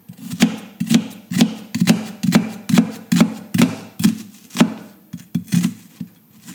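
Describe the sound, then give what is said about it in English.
A knife chops finely through onion on a board for ratatouille, making a steady, even series of sharp, crisp taps at about two strokes per second, with nothing else heard. “I'm dicing my onion finely here. Same for my pepper.”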